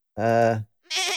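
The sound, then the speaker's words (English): Two bleats from a goat: a low, steady, nasal call, a short pause, then a higher, wavering second bleat, both loud and alone. “I can't air grievances to a goat.”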